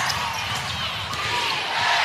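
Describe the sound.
A basketball dribbled on court during a WNBA game, its bounces blended into loud, steady crowd noise throughout.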